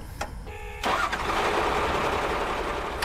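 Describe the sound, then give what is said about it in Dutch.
A vehicle engine starts as its driver turns it over during a burial ceremony. After a brief moment of lighter noise, it catches abruptly into a loud, steady idling rumble that holds to the end. “En daar start de chauffeur.”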